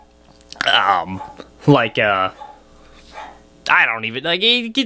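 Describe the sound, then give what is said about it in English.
A dog barks excitedly in the background with a few loud yips and barks, mixed with a man talking over them. “Sorry, dog going crazy in the background.”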